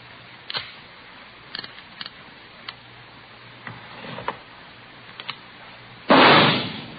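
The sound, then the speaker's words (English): A single loud gunshot from a .38 caliber revolver, test-fired into a ballistics box, follows a few faint scattered clicks; the sharp blast rings out and decays over about a second. “You have just heard a test bullet fired from a .38 caliber revolver found in the possession of a suspect.”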